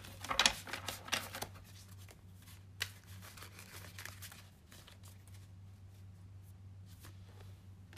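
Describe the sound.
Tarot cards are shuffled and drawn, with soft, faint rustling and flicking bursts clustered at the start, then sparser light taps and slides over a low steady hum.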